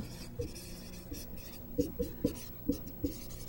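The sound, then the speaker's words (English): Chalk or marker writing on a board during a maths lecture on Pascal's triangle: faint, short scratchy strokes, scattered at first and then coming in a quicker run of several strokes. “Hopefully I have enough room to write this.”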